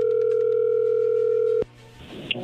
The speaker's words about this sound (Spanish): ahí entró la llamada, no agarré.